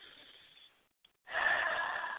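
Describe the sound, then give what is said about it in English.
A deep breath in rises after a brief silence as a steady, airy rush of inhaled air that lasts to the end, following fainter breathy noise at the start. “Take this moment to breathe in.”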